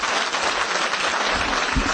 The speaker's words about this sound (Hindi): Teachers के लिए ताली बजा भाई जोर।